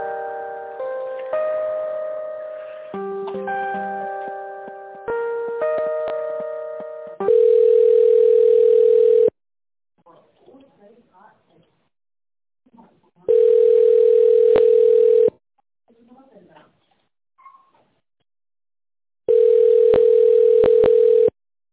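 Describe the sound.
Telephone tones during a call transfer: a short stepping electronic tune, then three long, steady, loud ringback tones with pauses between them.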